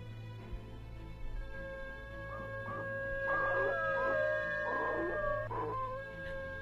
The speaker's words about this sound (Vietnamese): Còn đang cố lim dim đưa mình vào giấc nồng thì bên ngoài bất giác ông lại giật mình, bởi vì lại nghe tiếng chó tru lên trong đêm.